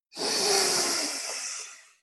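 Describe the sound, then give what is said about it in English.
A single slow inhaled breath taken during a guided breathing meditation, a soft airy rush that swells quickly, holds steady for over a second and then tapers away. “We breathe in like a wind.”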